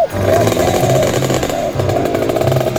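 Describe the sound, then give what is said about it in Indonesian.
A rare old vehicle's engine is revved hard, giving a loud, raspy, buzzing roar held at high revs with uneven pulsing throughout. “Gas terus, gas terus. Lo. Ini loh kendaraan langka yang harus dilindungi keberadaannya.”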